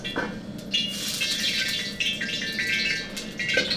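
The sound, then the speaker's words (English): Egg sizzling in about four tablespoons of oil in a ripping hot wok, a dense, steady crackling hiss that runs throughout with small bursts of sputter and no voices. “I love that sound. Yeah. And that smell, that carbon of the wok that you're smelling, that almost breath of the wok that they say, that's important. Yeah. So that's the egg, and it bubbles instantly.”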